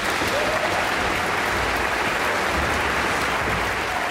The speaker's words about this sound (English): And his usual stand partner, principal Joseph Conyers, is coming on stage to cheers from the audience.